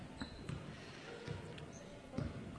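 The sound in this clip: A basketball dribbled on the court during a game, with a few dull bounces at uneven intervals and a voice talking over steady background murmur.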